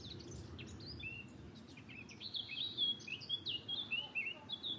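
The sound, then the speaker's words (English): A blackcap warbler sings near a church beside a lake. Its rapid, bright, high warbling phrases begin partway in and run to the end over a low, steady background rumble. “We've got a black cap singing here as well.”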